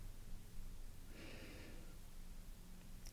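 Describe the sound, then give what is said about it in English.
A person inhaling slowly during a relaxation exercise, one soft, airy breath lasting under a second, faint over a steady low hiss. “Listen to your breath Focus on it. You inhale”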